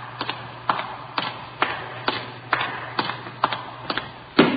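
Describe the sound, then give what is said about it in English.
A city hall elevator running: a steady low mechanical hum under regular clicking ticks about twice a second, ending with a louder clunk. “You have to take this elevator, Sarge. It's the only one to serve.”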